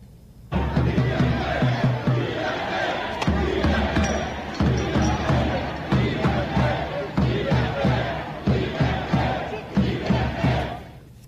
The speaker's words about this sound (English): Thousands and thousands of French, and they were chanting liberté, liberté, liberté.